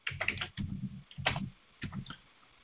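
Typing on a computer keyboard to enter a birthday: several quick bursts of soft, rapid keystroke clicks separated by short pauses, fairly faint and with no talk.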